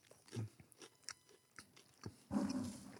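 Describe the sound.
Crisp bites and chewing of a savory, croissant-like bureka, a flaky baked pastry from Sephardic and Israeli cuisine: a few separate crunches followed by a louder, longer crunch near the end, with no talk.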